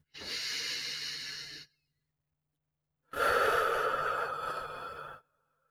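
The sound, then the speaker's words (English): Two slow, deep breaths, each a long airy rush lasting over a second, separated by a quiet pause, soft and unaccompanied by talk. “just take a few full body deep breaths”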